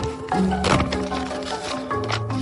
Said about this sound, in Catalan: Obrim el sobre, va.